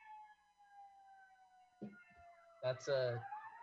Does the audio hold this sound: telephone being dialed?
no